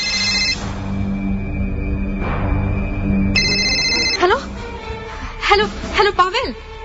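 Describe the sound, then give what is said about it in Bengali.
A mobile phone rings with a bright electronic ringtone that breaks a quiet moment. Its tones repeat in short bursts over a soft background, followed by a few brief vocal sounds. “হঠাৎ একসময় চার পাশের নিস্তব্ধতাকে ভেঙে দিয়ে বেজে ওঠে অনিকার phone.”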